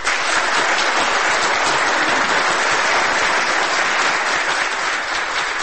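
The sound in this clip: Sustained audience applause after an actor's stage monologue: dense, steady clapping from a large crowd, loud and even from start to finish with no single voice standing out.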